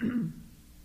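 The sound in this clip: A single short throat clearing from someone with something stuck in the throat, a low gruff rasp lasting a fraction of a second, then quiet.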